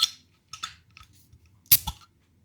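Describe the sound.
Opening a bottle of expensive beer priced at 12.99 euros: a few soft clicks, then a sharp, louder pop with a short second burst right after, alone with no talk.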